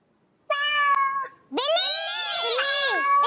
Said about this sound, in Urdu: یہ کس کی آواز ہے؟ بلی. بلی کی آواز ہے.